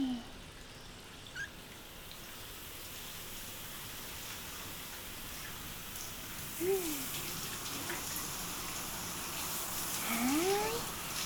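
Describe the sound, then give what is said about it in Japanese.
Shower running, with water spraying in a steady, even hiss that continues throughout and stays fairly faint, with a few brief squeaky sounds over it. “そうしたらシャワーを出しまして、”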